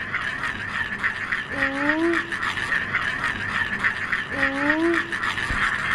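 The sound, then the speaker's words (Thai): A traditional Thai jakjan cicada toy spun round, giving a continuous raspy buzz, with two brief whining tones that sweep upward in pitch over it. “เขาตั้งชื่อจักรจั่นเพราะเสียงมันเหมือนจักรจั่นเหรอครับ ทุกคนสังเกตเสียงดีๆเสียงทุกคนสังเกตอะไรไหม เร็วเร็วขึ้น จะหมุนเร็วขึ้นเสียงจะสูงขึ้น”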